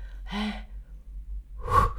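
Candles on a birthday cake being blown out: a couple of short, breathy gusts of air, the later one a louder rushing puff.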